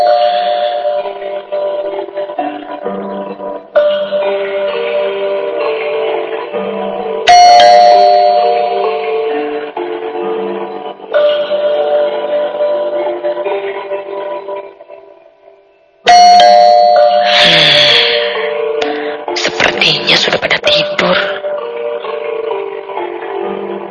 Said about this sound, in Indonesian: Segera aku menekan bel rumah berulang-ulang.